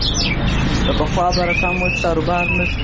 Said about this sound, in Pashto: د کندهار ښار د مرغانو بازار کې کینری، واټر چوغه کې بلبلان، توتیان، زرکی، کرکان او ډول ډول مرغان